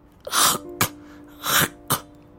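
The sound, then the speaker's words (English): Forced coughing to clear the throat, in two pairs: each pair is a breathy push followed by a sharp, explosive hack. The coughs are fairly loud over a faint steady hum. “It's still in your throat. Cough twice more.”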